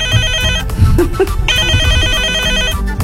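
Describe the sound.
A telephone ringtone signals an incoming call, a loud repeating electronic tone pattern over a busy background.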